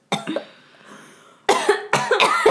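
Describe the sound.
Gagging coughs from a person whose throat feels funny: a few harsh throaty bursts, a short lull, then a louder run of choking, retching coughs, with no talk.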